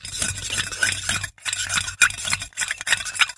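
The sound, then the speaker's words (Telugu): A spoon stirs 50 grams of powder into water to dissolve it into a solution at 30 °C, giving steady scratchy scraping and light clinking in quick repeated strokes, broken by a few brief pauses. “ముందు ఈ 50 గ్రాముల పొడి కలుపు.”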